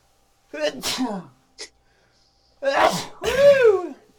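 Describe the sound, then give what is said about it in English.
A person sneezing: breathy intake sounds and a brief sniff lead into one loud, explosive sneeze with a voiced, falling tail, standing alone between quiet pauses. “I got to sneeze. Hold on.”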